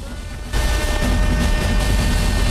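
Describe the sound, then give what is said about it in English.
Fireworks explode above a stadium: a sudden loud burst opens into a dense, continuous roar of booms and crackle that stays heavy to the end. “Fireworks explode above the stadium”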